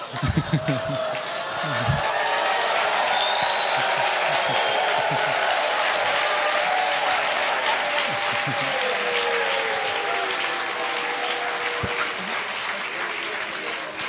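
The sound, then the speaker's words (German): Audience applause at a Christian church conference, dense sustained clapping that holds steady and loud for the full length, with a brief voice at the very start. “Pastor George gets a much more enthusiastic clap than I do.”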